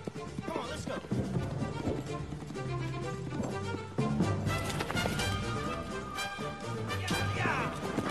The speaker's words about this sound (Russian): Та убегает от него. Показывают погоню Алана за лошадью.